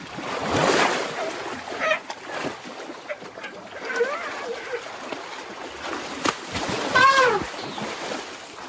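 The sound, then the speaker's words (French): Elephants wade through water, sloshing and splashing steadily while a few soft, brief trumpeting calls rise above the wash of the water. “Quelques petits barrissements furtifs pendant qu'ils sont en train de patauger dans l'eau actuellement.”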